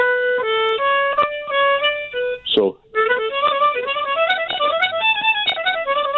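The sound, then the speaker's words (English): A harmonica plays a repeating paradiddle pattern of blow, draw and slide notes in the middle of the instrument, with quick alternating reedy notes like a fiddle tune. A brief break falls near the midpoint. “The paradiddle okay. is a pattern of right, left, right, right, left, right, left, left. And it's on the harmonica, it's blow, draw, blow, slide, draw, blow, draw, slide. So in the middle of the harmonica, it sounds like this.”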